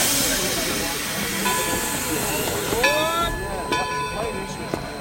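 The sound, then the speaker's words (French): A steam locomotive puffs at Grenoble railway station in 1925, giving a broad, steady hiss of steam with faint squealing tones and a few sharp metallic clicks. “Dans l'ombre du Vercors, une locomotive crache sa fumée dans le ciel de la gare de Grenoble.”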